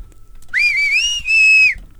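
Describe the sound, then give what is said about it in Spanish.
A person whistles one long, fairly high tone that wavers gently, with a brief break partway through, lasting just over a second alone over a faint low background rumble. “Prefiero que prefiero el chiflido.”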